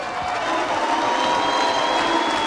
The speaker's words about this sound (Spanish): Mandamos un aplauso fuerte al Piti